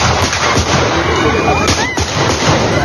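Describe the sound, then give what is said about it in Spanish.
Gunshots fired by an attacker at a party rally ring out as a few sharp cracks within dense, loud, continuous crowd noise. “Este fue el momento en el que recibió varios disparos por parte de un desconocido que fue detenido justo después de cometer el atentado.”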